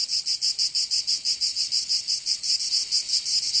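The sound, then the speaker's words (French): Cicadas buzz in a loud, steady high-pitched drone that pulses rapidly and evenly throughout, with no voices. “Alors, c'est les cigales.”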